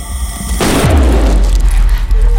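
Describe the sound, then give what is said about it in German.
A gun goes off in a single sudden, loud blast, followed by a deep booming rumble that lingers to the end. “Die Waffe ging los.”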